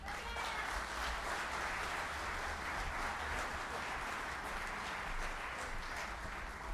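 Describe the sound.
Faint, dense applause greets a Canadian consular speaker at an EAA AirVenture aviation gathering. The clapping holds even and steady throughout.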